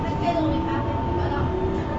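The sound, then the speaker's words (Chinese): Steady rumble and motor whine of a metro train running on underground Line 1 toward Xinzhuang, a continuous, even roar with thin sustained tones across the whole stretch. “欢迎乘坐一号线，本次列车开往新庄。”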